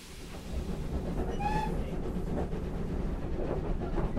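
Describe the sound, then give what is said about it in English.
Steady, loud rumbling and clattering of a locomotive working hard as it hauls a passenger train uphill, with a brief high squeal partway through. The heavy drone continues without a break to the end. “The locomotive is now working hard on the way up from Alsford to Roffley.”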